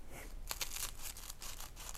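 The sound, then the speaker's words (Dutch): Kitchen scissors cutting through bread: a few quiet, crisp snips and crunches in quick succession. “Ik heb brood. Normaal knip ik hem boven de pan, maar voor de video doe ik even zo, anders kan je niet meekijken.”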